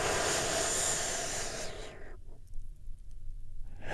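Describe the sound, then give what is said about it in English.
A deep breath during guided meditation makes a long, airy hiss for about two seconds. Quiet follows, and another breath begins at the very end. “Take another big, deep, healing breath with me right now. Here we go. And”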